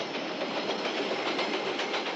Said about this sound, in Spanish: Echa a correr hacia las vías y atraviesa en marcha las paredes del tren que pasa en ese momento.